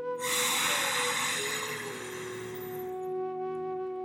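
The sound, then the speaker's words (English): A deep inward breath taken during a guided relaxation breathing exercise, a long, steady, airy intake over soft sustained background tones. “Let's do a few more together now. Deep inward breath.”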